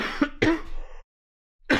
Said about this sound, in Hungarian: elnézést, csak megfulladok